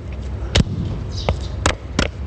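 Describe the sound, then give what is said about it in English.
Heavy thuds of a huge wooden mallet pounding soil into dust for clay in a tile workshop courtyard: a few dull, separate blows at an uneven pace over a low background murmur. “a man pounds soil into dust for clay with a huge wooden mallet”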